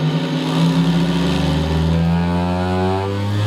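A vibrating machine that a person sits on, running with a steady, loud motor drone and buzz. Its hum climbs steadily in pitch through the second half as the vibration is turned up.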